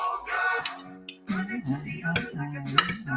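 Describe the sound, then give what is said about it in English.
A spoon clinks against a dish used for applesauce, giving a few sharp, light metallic taps scattered among other steady, tonal background sound. “You could use that spoon if you want, because I'm not going to have any more applesauce.”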